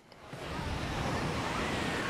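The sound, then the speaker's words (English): Waves lap on a windy Southern California state beach on a sunny day, a soft, continuous wash of surf that swells slightly in loudness, mixed with steady wind noise. “the waves are lapping”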